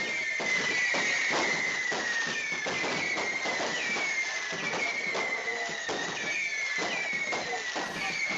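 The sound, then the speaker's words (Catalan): Fireworks bursting at the opening of a town festival in Sant Joan d'Espí: a dense, steady barrage of many rapid bangs and crackles that stays loud throughout. “Teniu molts coets per allà”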